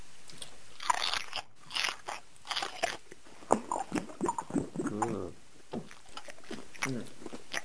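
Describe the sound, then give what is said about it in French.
Crisp, crunchy bites and wet chewing of a fresh tomato come in a few irregular bursts, followed by some talk. “Délicieuse, cette tomate. Je n'avais jamais goûté d'aussi bonne.”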